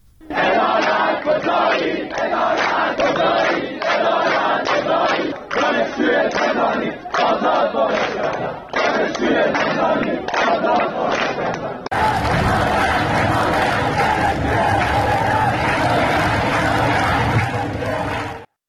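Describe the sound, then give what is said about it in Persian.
Students at a protest rally on a Tehran university campus chanting slogans in unison, loud rhythmic bursts of massed voices separated by brief pauses, followed by a second, fuller stretch of continuous crowd chanting. “در دانشگاه تربیت معلم رجایی تهران هم دانشجویان شعار عدالت کجایی دادند. به چند صدای تجمع دانشجویان هم با هم گوش کنیم.”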